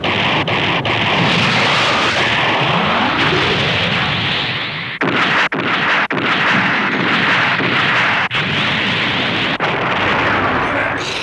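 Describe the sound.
A mega particle cannon and artillery fire in a battle scene, forming a dense, loud roaring barrage. Several sharp breaks and bursts cut through the continuous rumble.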